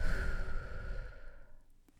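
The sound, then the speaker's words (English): A deep breath taken during a guided breathing pause: one long, airy, breathy exhale, fairly loud at first and fading gradually over about two seconds, with no talk. “I actually want to take a moment just to breathe deep in and out, okay? Do it with me. Big breath in and out.”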